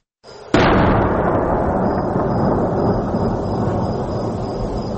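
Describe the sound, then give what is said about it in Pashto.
A single heavy artillery cannon blast near a city in Helmand strikes with a sudden sharp crack, then swells into a long, deep rolling rumble that holds steady and fades only slightly over several seconds. “د ډي سي توپ لوی فایرونه ښار لړزوي.”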